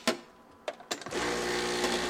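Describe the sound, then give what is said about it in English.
An espresso machine switches on to steam milk: a few sharp clicks, then a steady, loud whirring hiss with a buzzing hum that carries on to the end. “Inside the Ellender home, Teresa Marie switches on an espresso machine and pours frothy steamed milk into a glass”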